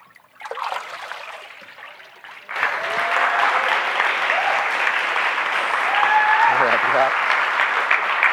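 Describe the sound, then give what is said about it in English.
Congregation applause after a baptism, starting as moderate clapping and swelling noticeably louder partway through into a sustained round, with voices heard over it. “We could keep applauding. This doesn't have to stop.”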